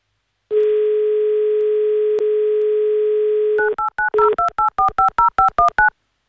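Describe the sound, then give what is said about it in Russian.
A telephone dial tone holds steady for about three seconds, then gives way to a rapid run of many touch-tone keypad beeps as a number is dialed to place a call, with no voices. “Ну а теперь, друзья, нам нужно все-таки до Андрея дозвониться. Мы это сейчас с вами и сделаем.”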